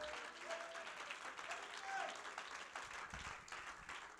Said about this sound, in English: would you clap your hands to the Lord in this place?